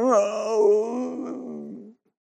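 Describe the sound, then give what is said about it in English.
A voice imitates a groan, one drawn-out moaning vocal sound lasting about two seconds that wavers slightly in pitch and then trails off into silence. “And in fact, the groaning of believers isn't us walking around going,”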